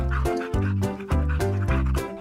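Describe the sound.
A puppy barks and yips while playing, a rapid, evenly spaced series of short, loud, high calls.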